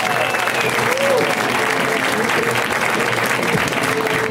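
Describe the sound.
Audience applause for a comedian being welcomed to the stage at a comedy show in L.A. Dense, steady clapping holds at an even loudness from start to finish.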